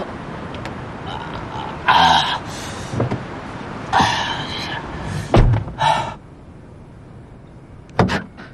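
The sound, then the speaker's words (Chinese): A car door is handled with several clunks and thuds, including a deep thump near the middle, alongside short bursts of muffled voices. “把车门打开。这样，你先到车上休息一下。”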